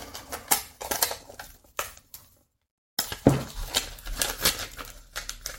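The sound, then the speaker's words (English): Packaging crinkles and crackles as a tablet is unwrapped, with many short, sharp rustling bursts, a brief silent pause partway, then more crisp tearing and crumpling. “Move this box out of the way. Now I'm going to unwrap the tablet.”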